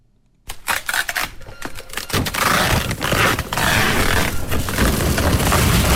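A printer printing express delivery labels from computer order records in a busy e-commerce packing workshop: it starts abruptly with clattering mechanical ticks, then settles into a loud, steady whirring and grinding feed that runs to the end.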